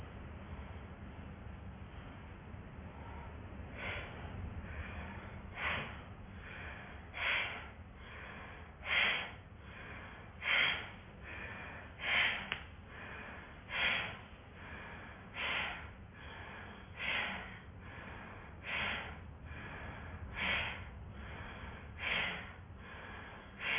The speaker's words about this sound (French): On va commencer par un souffle de Bhastrika. À l'inspiration, vous allez sortir le ventre. Et à l'expiration, vous allez rentrer le ventre.